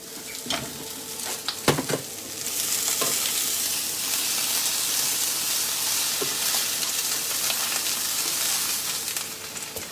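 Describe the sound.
Mince browning in a frying pan, with a steady, loud sizzle throughout and a few sharp stirring clicks and scrapes near the start.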